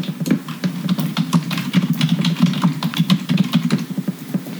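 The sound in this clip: Rapid typing on a computer keyboard as a web search is entered, with many quick keystrokes clicking in an uneven, continuous rhythm over a low steady hum.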